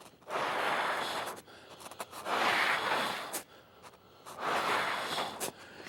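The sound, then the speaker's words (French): Breath is blown across the top of a sheet of paper in three long, soft rushes of airy noise, each about a second long, separated by short pauses, with no voices. “Je vais souffler sur le dessus de la feuille sans rien créer en dessous.”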